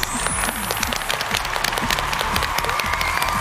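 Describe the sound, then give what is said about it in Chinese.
An audience applauds to welcome the Guangzhou Xinghu Choir. Many distinct claps crackle through a dense, continuous wash of clapping at an even, moderately loud level. “让我们掌声欢迎广州星湖合唱团，欢迎各位。”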